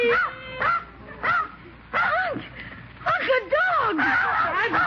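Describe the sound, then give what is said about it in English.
A dog whimpers and yips in a series of whining bursts, each sliding up and down in pitch, loud and close together, growing more frequent toward the end. “you got me a dog for Christmas”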